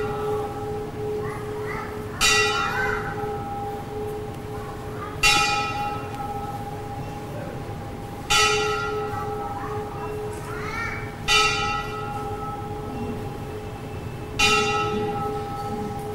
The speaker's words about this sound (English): just wait till the bell comes